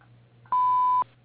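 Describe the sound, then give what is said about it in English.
A voicemail answering machine gives a single steady electronic beep lasting about half a second, clear and mid-high in pitch over a faint low hum, with no voices. “Please leave a message after the tone”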